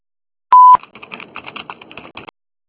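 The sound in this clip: A short, loud voicemail beep at a fairly high pitch sounds once, then a quick run of soft clicks fades out.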